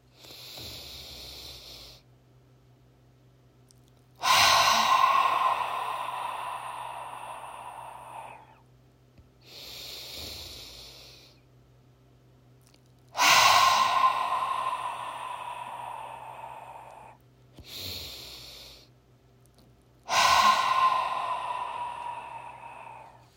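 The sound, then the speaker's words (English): Deep guided breathing with loud exhales: three cycles of a soft inhale and a pause, each followed by a forceful, hissing exhale that starts loud and slowly fades. No voices are heard. “breathe in three times and pause at the top, and exhale loudly and pause at the bottom of the exhale”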